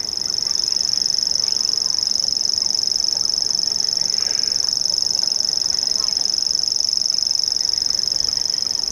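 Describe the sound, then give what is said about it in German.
A grasshopper warbler, a bird active at dusk and at night, reels a high, insect-like trill resembling a sewing machine. The song holds steady and unbroken through the whole clip over a faint low background. “Ja, das sind auch Vögel. Am Tag eher seltener zu hören, eher so dämmerungsaktiv, aber auch nachts, alle 3. Und so begleitete uns dieses Geräusch durch die ersten Stunden.”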